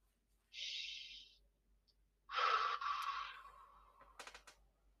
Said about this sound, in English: I'm just going to take a deep breath to put myself into trance.